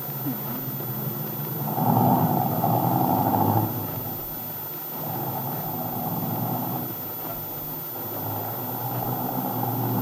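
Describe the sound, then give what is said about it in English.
A car engine hums steadily while the car drives, a broad low rumble with a louder swell early on, then a calmer, even drone. No voices are heard. “Say, this motor really hums”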